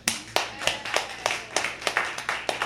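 Audience clapping for a guest on a jazz show: many steady, rhythmic hand claps with regular sharp accents, continuing evenly throughout without voices.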